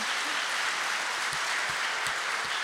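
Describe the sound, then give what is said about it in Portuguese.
A church audience applauds at a church anniversary service, with steady, dense clapping that holds at an even level throughout, with no talk over it. “Você pode dar uma salva de palmas para o Senhor? Mais forte.”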